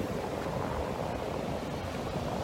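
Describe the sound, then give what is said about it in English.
Ocean waves on a beach in the morning, a steady, dense rushing roar that holds an even level with no distinct breaks. “I like to come here specifically, not just because of the ocean, which is absolutely gorgeous,”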